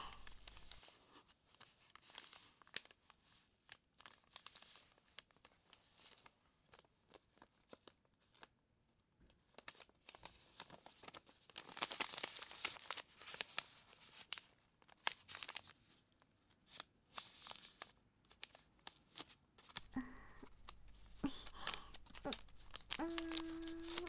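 Paper crinkles and rustles as the end and middle of an origami chicken are folded inward. The quiet, uneven rustles and soft crackles come in irregular bursts with pauses between them.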